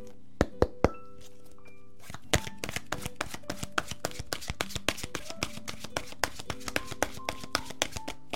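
Oracle cards being shuffled and drawn: a few sharp taps at first, then a long run of rapid, crisp card clicks and riffles in steady succession.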